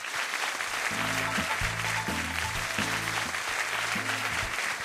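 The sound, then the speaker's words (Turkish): An audience claps in a dense, continuous wash of applause. A low, repeating musical phrase plays beneath the clapping. “Biz de senin temiz kalpliliğini alkışlıyoruz.”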